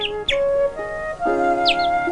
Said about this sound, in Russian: На наличнике гнездо, из которого серый воробьишка выглядывает во двор.